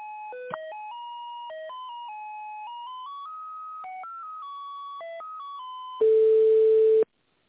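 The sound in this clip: Telephone ringback tone while a call is transferred to an accounting department: a thin electronic melody of stepping beeps, then one loud, steady, mid-pitched ring lasting about a second before silence.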